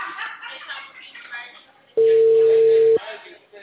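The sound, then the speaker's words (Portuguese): Ringback tone of an outgoing phone call: after some talking, a single steady, mid-pitched electronic beep sounds loud and clear for about a second, then stops abruptly. “É, eu tô ligando. Chamada em caminho.”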